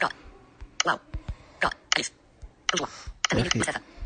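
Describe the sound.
A name is typed into a list on an iOS device, producing a few irregular, sharp tapping clicks in short clusters, fairly faint, with brief pauses between bursts.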